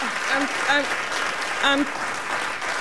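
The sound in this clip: An audience gives a standing ovation with dense, sustained applause, and voices are heard over the clapping.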